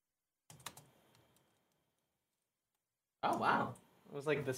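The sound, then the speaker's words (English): Keystrokes on a computer keyboard as a web search is typed, a short quick run of light clicks that fades out. After a pause, people start talking. “Just type in food poisoning fever.”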